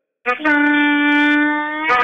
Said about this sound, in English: when you're playing a harmonica, you bend a note and it sounds like this.